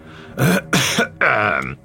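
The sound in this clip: Throat clearing done deliberately and with self-importance: three loud, rough voiced bursts in quick succession, the last one longest, with no speech around them.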